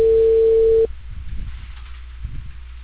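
A telephone ringback tone sounds while an outgoing call is placed to a customer about cable service. It is one steady, fairly loud tone lasting under a second, then it stops, leaving faint low rumbling on the line.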